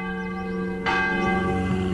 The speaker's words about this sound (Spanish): Imagínate escuchar las campanas de la iglesia del cura.